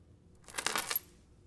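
A necklace drops onto a hard surface, giving a short, bright metallic clatter like a coin falling. It is a quick jingling burst of several small impacts, fairly faint against near silence.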